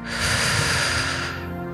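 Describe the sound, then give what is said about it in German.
A single long, deep breath drawn in during a guided breathing exercise, filling the belly. The airy inhale holds steady for just over a second, then fades away. “Tief einatmen in deinen Bauch hinein.”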